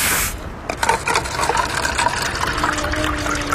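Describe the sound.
A drink is poured into plastic cups, with splashing, gurgling liquid over a steady background.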